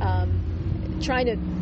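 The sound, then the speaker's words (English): A car driving by sets up a loud, steady low rumble that fills the whole moment, with a voice briefly audible over it. “And sorry, car going by.”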